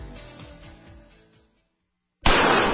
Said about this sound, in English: That's the sound of a .44 Magnum and Traumamax, a high-tech hybrid Kevlar bulletproof vest